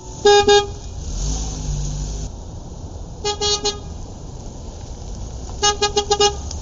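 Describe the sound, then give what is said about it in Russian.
Car horn honking in three separate bursts of short, bright toots from a large black car pulling up at a roadside. The later bursts are quick runs of several blasts over a low, steady traffic rumble. “взвыла сирена”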